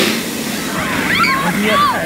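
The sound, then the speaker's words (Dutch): Water pouring and splashing over a clothed person sitting underneath it on a hot day, a steady, loud rushing splash with brief vocal sounds over it. “Maar is het wel lekker? Want je zit echt helemaal onder het water. Nou, ik zit wel onder het water, maar het is wel gewoon lekker.”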